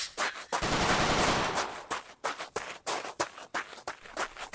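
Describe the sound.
Gunshots fired through a hole, many loud sharp bangs in quick, irregular succession, some running together into rapid bursts.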